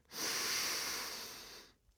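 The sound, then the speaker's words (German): A single long inhale through the nose during a guided breathing exercise, a smooth airy hiss that starts abruptly, holds for about a second and a half while fading slightly, then stops. “Atme durch die Nase ein”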